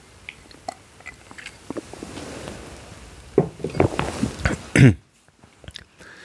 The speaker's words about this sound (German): muss einmal kurz einen Schluck trinken.